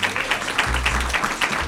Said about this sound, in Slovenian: tako da tole sicer ne bodo fanfare, bo pa pač tak zmeren aplavz še za vse ostale, da jih razglasimo.